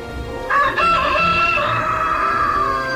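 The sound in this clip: A rooster crows once, loud and drawn out, starting after a brief pause and holding a bright, wavering call over low background noise until the end.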